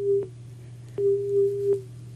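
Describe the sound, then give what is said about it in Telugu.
A telephone line tone after a dropped call sounds as a steady, mid-pitched beep in two bursts, a short one then a longer one, over a faint low hum. “మరి phone line cut అయినట్టుంది లేదంటే signal లేదో.”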